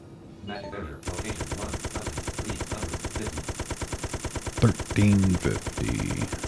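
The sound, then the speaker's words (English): Rapid automatic gunfire from a video game with essentially unlimited ammo. After a brief quiet start, an even stream of shots runs for about five seconds without letting up. “You give me essentially unlimited ammo, I'm gonna use it, damn it.”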